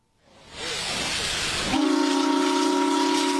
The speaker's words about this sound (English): The sound of history coming back to life as an almost 120-year-old paddle steamer returns to service following years of volunteer work.